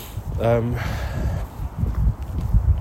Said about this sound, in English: Also because I'm like power stomping it all the way back.